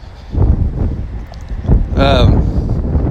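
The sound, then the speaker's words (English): Strong outdoor wind roars against the microphone in a loud, steady low rumble with buffeting gusts, and a brief tonal voice-like sound rises above it partway through. “And the wind is blowing like a son of a bitch out here.”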